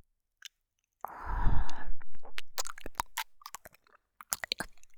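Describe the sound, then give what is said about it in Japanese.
Close, wet mouth sounds of ear licking in an intimate role-play: a breathy rush followed by a run of soft, moist smacks and licks, then scattered tongue clicks and lip noises, with no talk. “耳なめから始めたらいい雰囲気になるんじゃない？”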